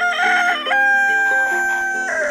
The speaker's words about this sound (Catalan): De sobte passava per allà un gall.